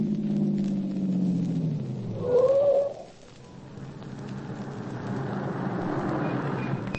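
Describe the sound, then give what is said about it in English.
A car horn sounded by a driver behind wanting to pass: one brief, fairly loud blast rising out of steady engine and road rumble. “Listen to that. Guy blowing his horn to pass, and he's a half a block behind me.”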